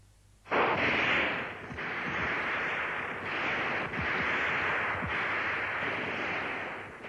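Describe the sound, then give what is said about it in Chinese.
Rifle gunfire in battle: after a short quiet start, a dense, loud roar of shots sets in and continues to the end, with many sharp cracks repeating at a fairly even rhythm. “战斗中，战士们对准肆无忌惮进犯的敌人，瞄准射击。”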